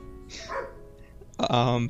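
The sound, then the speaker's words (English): Dogs bark in two bursts: a short, rough bark, then after a pause a longer, loud, tonal bark with a wavering pitch. “Pardon the dogs. Yeah, pardon the dogs.”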